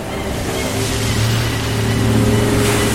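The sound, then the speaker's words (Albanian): A motorboat speeding across the water toward a town, its engine a steady low droning hum over rushing water and spray noise, loud throughout and swelling slightly toward the end. “Sa po shparë në horizont një varkë që po afrohet me shpejtësi drejt qytetit.”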